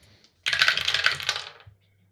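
Four ten-sided dice rolled for a tabletop role-playing game make a brief, bright clatter of many small hard clicks and rattles that tumble for about a second, then die away, with no talk.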